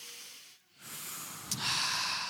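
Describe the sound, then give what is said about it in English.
Group of people drawing a deep breath together, a soft, airy rush that briefly dips quiet and then swells into a broad breathy hiss of inhaling and exhaling, low in volume. “Okay, everybody take a deep breath with me.”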